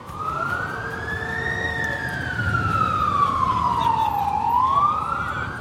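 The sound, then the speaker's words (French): New York street ambience from the early 1980s, dominated by a loud wailing siren that climbs, slowly falls, then climbs again over a constant low traffic rumble. “nous voilà arrivés dans les rues de New York. Hein. Vous entendez cette ambiance que vous connaissez bien.”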